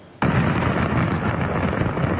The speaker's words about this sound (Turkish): Havai fişek fabrikasındaki patlama amatör kameraya böyle yansıdı.